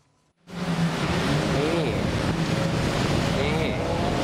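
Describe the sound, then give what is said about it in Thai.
A jet ski runs through floodwater on Phetchaburi Tat Mai Road, a loud, steady roar of engine and rushing water that starts abruptly after a brief quiet moment, with faint wavering motor tones. “มีคนเอาเจ็ตสกีลงมาเล่นกลางน้ำเพื่อทำคอนเทนต์ตรงเนี้ยถนนเพชรบุรีตัดใหม่นะครับ”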